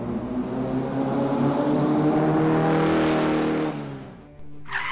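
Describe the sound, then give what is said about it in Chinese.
A dozen black sedans speed in with a sustained, loud engine roar. The rumble holds steady, then drops away sharply just before the end, when a brief hiss follows. “很快，十几辆黑色的轿车疾驰而来，”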